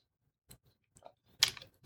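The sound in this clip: Faint chewing between cheese tastings, as the palate is cleared, comes as a few soft, irregular clicks and crunches with a slightly louder cluster partway through, with no talking.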